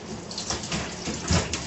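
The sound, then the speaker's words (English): Tap water runs steadily over food that was soaked in salt water and sprayed with a hot vinegar solution, a continuous hissing splash with small fluctuations and no talk. “And then I rinse it again.”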